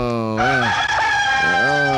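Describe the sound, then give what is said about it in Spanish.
Rooster crowing, a bird soaked by winter rain, giving one loud, long, sustained crow that breaks up in the middle and swells again toward the end. “Ay, cómo amanecería ese gallo de mojado con este invierno. Y amaneció en Paramao el gallo, tía.”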